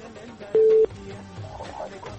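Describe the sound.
A single short, steady telephone tone sounds once while a radio call-in line connects, over a low background murmur.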